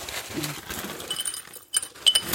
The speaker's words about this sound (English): I'll put some crushed ice into our tiki glass, which we have prepared for this purpose.